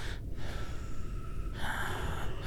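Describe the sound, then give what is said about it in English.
A voice imitates loud, heavy breathing with a few rasping, breathy exhalations and snort-like pushes of air. The breaths are fairly steady in level and carry no words. “And I could hear breathing, like very loud, sort of like”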